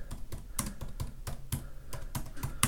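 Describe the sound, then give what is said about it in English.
Faint typing of a search on a computer keyboard, many quick, irregular key clicks tapped out in short runs with tiny pauses, heard alone without any voices. “Let's type in insider trading”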